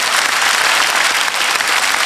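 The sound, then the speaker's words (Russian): Audience applause, a dense, steady clatter of many hands clapping. It stays loud and even for the whole stretch without a pause. “Видите, вам девушка аплодирует”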